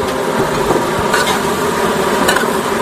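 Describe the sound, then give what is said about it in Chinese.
Stir-frying a three-cup dish with basil in a clay pot: a continuous loud sizzle broken by a few sharper scraping strokes, with no talk. “所以说呢，它只要拌炒一下，让这个味道入味就好了。 九层塔下来，”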